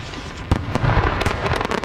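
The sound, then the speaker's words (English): Fireworks from an almost-legal spectacular show: many sharp bangs and crackling bursts, loud, over a steady low rumble, with no voices. “Almost legal fireworks spectacular show.”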